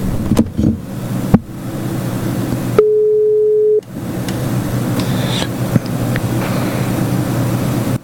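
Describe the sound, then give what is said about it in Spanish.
A single steady telephone line tone sounds for about one second while a phone call is placed. A continuous low rumbling hum with a few sharp clicks runs before and after it. “vamos a hacer una llamadita que hay un personaje por ahí muy especial. A ver si lo tenemos a tono. A tono está.”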